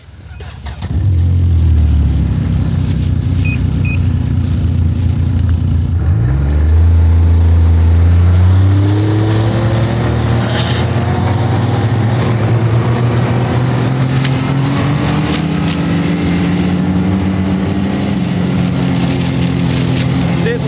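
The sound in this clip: A snowmobile engine drones steadily while riding, its pitch dipping briefly and then climbing to a higher, even note that holds for the rest of the ride.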